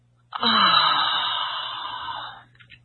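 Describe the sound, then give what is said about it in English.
A single long, deep exhale during a guided breathing exercise: a breathy rush that starts abruptly, holds steady, then fades gradually over about two seconds, with no talking. “This time, inhale into your heart. Exhale from your heart.”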